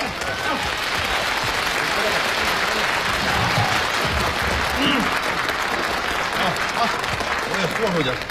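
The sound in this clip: Audience applause welcomes a solo performer onto the stage for a comic three-and-a-half-line routine at a variety show. Dense, steady clapping fills the whole stretch without a break.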